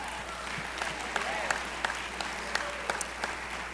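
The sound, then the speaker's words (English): Audience applause for scholarship winners at a conference: a steady, dense wash of many clapping hands at moderate level, with occasional sharper single claps standing out. “Please come and give them a huge round of applause. They deserve it.”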